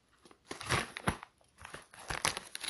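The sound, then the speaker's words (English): Packaging torn open with a box cutter to free a book, giving bursts of crinkling, crackling tearing with short pauses between them, fairly quiet throughout. “It doesn't look like it's easy to tear with bare hands. Nope. We tear it with a box cutter.”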